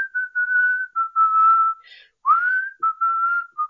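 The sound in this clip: Whistled melody from the opening of a late-1990s song, carried as a bright, pure tone in a string of short phrases with small gaps. Notes hold steady or step between pitches, with one clear upward slide midway.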